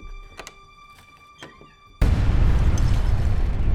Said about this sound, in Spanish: ¿Qué fue eso? Son las 7:33. Ya debió explotar la bomba.